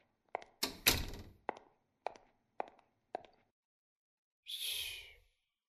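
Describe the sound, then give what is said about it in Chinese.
A door is being shut, giving a quiet series of several soft thunks and knocks spread over a few seconds. After a pause, a longer breathy, rustling sound follows alone. “我先把门关上”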